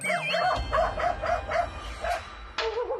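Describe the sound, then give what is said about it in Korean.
A small dog by a yard eatery gives a run of quick, high, yappy barks in a regular rhythm, moderately loud over a constant rumbling background, ending in a rising whine. “그 사이 마당 식당 앞을 서성이는 강아지.”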